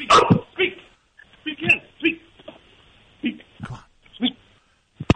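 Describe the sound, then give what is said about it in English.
A pet dog barks on command, giving a few sharp barks and yips in separate bursts, mixed with a person speaking to it. “Speak. Come on. Speak. No. There you go. One more time. Speak. That's Faye. She's jumping all over me.”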